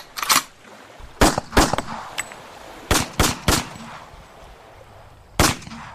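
Bullets are fired from a gun in a series of loud, sharp cracks, about seven shots. They come in irregular bursts with pauses between them over a low background hiss.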